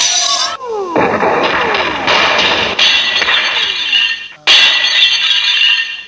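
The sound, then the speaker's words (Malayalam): A house collapses with loud crashing and breaking: continuous smashing, shattering and glass-like clinks, with a fresh burst of heavy debris near the end. “ഇതേത് ഇടിഞ്ഞു പെടുന്ന ഒരു വീടാണെന്ന് തോന്നുന്നു.”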